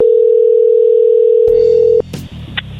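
A steady telephone tone holds a single pitch for about two seconds while a call is redialed, then cuts off abruptly into a few brief clicks and handling noises.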